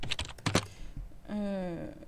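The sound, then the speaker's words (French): A few quick clicking keystrokes on a computer keyboard while typing into Tor Browser, followed by a steady tonal sound that holds for under a second. “le problème, là, je viens de le taper avec Tor Browser.”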